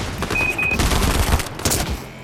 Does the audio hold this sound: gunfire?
yes